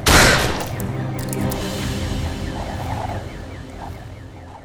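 A micro shotgun fired at point-blank range into a creature that explodes, heard as a sharp, loud blast at the start that trails into a sustained rumbling, crackling tail as a game sound effect.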